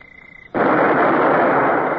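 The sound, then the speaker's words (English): A ship's cannon fires a single shot aboard a sailing warship: a sudden loud blast whose roar sustains to the end, preceded by a faint, steady high whine. “Well, I believe we can open fire, Mr. Davy. Aye, sir. Open fire!”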